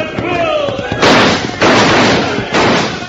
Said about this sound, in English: Shoot pretty well when they have good rifles. Fire!